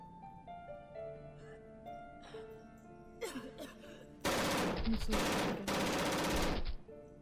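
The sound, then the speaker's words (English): Gunshots in a dramatic scene: a few loud, rapid bursts of automatic gunfire arrive in quick succession after quieter musical tones. “And that's Janet getting shot.”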